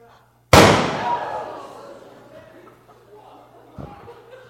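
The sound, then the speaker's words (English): A gunshot in an audio drama: one sudden loud bang with a long decaying tail, followed a few seconds later by a much softer knock. “Winslow, I hear a shot.”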